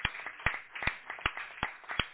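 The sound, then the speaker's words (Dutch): Applause in a parliament during a farewell to departing members: faint, sparse handclaps at a slow, fairly steady rhythm, each clap distinct rather than merging into a roar. “Dat zal applaus geven. Kan maar applaus geven, ja.”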